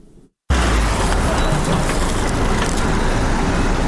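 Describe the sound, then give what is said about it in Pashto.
Vehicles loaded with medical and non-medical supplies and medicines in Urozgan province, Afghanistan, drive by. A dense, loud, steady engine and road rumble starts abruptly after a brief quiet moment and continues unbroken. “دا ژغونه د هغه موټرو دي کوم چې په تیبي او غیر تیبي وسایلو او د غراز په درملو باندې بار دي.”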